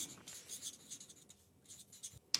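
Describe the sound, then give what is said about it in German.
Pen scratching across a sheet of paper in short, quiet strokes with small pauses between them. A sharper scratch comes right at the end, and no voices are heard. “Du hast einen Zettel, einen Stift, wir sind ein Kurzteam. Na, Wahnsinn. Ja, dann schreibe ich zuerst.”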